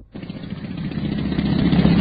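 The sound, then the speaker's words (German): Pneumatic drills dig a half-metre-deep trench across a street by the Brandenburg Gate at night. A dense mechanical rattling roar starts abruptly and builds louder, continuous and steady. “Seit etwa 1 Uhr heute Nacht rattern die Pressluftbohrer und bohren einen Graben quer durch die Ebertstraße hier am Brandenburger Tor.”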